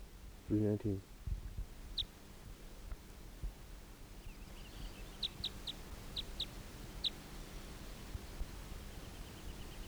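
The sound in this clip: Decoy birds calling during bird testing: a loud, low harmonic call near the start, then several faint, sharp high chirps scattered over a steady background hiss.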